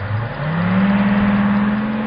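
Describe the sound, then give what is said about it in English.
Diesel engine of a city bus blasting past: a loud, continuous low drone whose pitch rises slightly and then holds steady. “Slightly dizzy from the last diesel blast of a city bus, Environmental Man”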